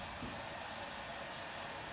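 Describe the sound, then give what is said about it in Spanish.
A washing machine running at home gives a steady, even whirring rush that holds constant throughout, with no voices. “¿Qué has puesto? ¿La lavadora? ¿Te importa quitarla un rato?”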